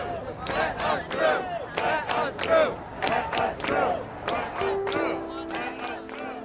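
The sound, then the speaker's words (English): Black Lives Matter protesters chant in the evening while police hold them boxed in on a bridge after a march from Brooklyn to Manhattan. Rhythmic group shouts repeat in steady, forceful bursts from many voices. “Black Lives Matter activists took to the streets, marching from Brooklyn to Manhattan, and they were boxed in by police, trapped on the bridge for several hours. This is sound from that evening.”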